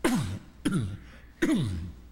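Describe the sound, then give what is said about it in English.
Someone clears their throat three times. Each is a harsh, rasping burst with a falling tone, separated by short pauses, heard alone without talk. “Can't clear this throat this morning.”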